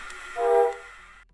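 A train hums along the tracks with a soft, brief rumbling drone. A tonal swell rises in the middle, then fades away after about a second.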